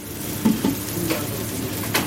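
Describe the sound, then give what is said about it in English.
Steaks and burgers topped with eggs and cheese sizzle on a kitchen grill during a lunchtime rush. A low, steady hiss runs throughout, broken by a few soft clatters of pans or utensils. “the steaks and burgers are sizzling away here in the kitchen, topped with eggs and cheese for the lunchtime rush”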